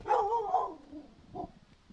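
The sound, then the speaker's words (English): A black Labrador–pit bull mix barks at the door of a home. There are two barks: the first is longer and louder, and the second is shorter and fainter. “A black lab pit bull mix named Animush barks at the door of Sandy Derrigan's home.”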